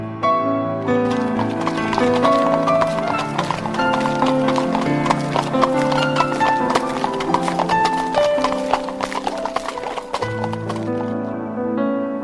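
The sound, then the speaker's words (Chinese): Hurried horse hoofbeats from horses galloping after a fleeing covered wagon at night, a steady, dense clatter running loud and continuous through the whole stretch. “突然隐约传来了一阵急促的马蹄声”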